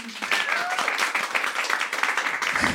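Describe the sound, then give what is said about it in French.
Audience applause in a venue during a live recording, a dense, lively patter of many hands with a brief whistle early on, cutting off abruptly at the end. “qui est dans la salle ce soir, on peut l'applaudir”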